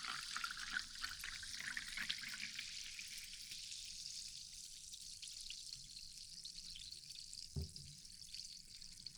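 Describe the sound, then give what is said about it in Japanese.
A carbonated drink fizzes with a steady, bright hiss of bubbles that stays fairly even throughout, with one brief soft knock near the end. “元気がいいですね、この炭酸。”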